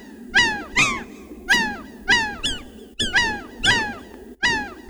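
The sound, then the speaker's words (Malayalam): A bird chirps in a steady series of sharp, squeaky calls. Each call sweeps downward in pitch and repeats about every half second over a low, rumbling background. “നിങ്ങളുടെ പരീക്ഷണ നാളിയിലൂടെ കടന്ന് പ്രതിധ്വനിച്ച ശബ്ദം എന്താണെന്നറിയാമോ? അതൊരു കിളി ചിലച്ച ശബ്ദമാണ്.”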